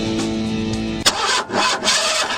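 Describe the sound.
A car engine cranks but fails to start: a sharp click, then the starter grinds on in an uneven, pulsing whir for over a second without the engine catching.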